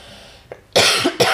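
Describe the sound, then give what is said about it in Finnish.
Two loud, harsh coughs from a person in quick succession, preceded by a faint short throat sound. “Miten tämä nyt meni siihen, että mä yskin?”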